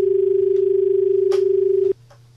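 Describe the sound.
An incoming telephone call announces itself with a steady mid-pitched tone that pulses slightly. It holds for about two seconds, then cuts off abruptly, leaving faint background hum.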